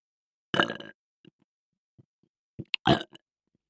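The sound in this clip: A person burps close-up in an erotic roleplay: one long, croaking belch, a few small, scattered gulps, then a second cluster of short belching sounds near the end.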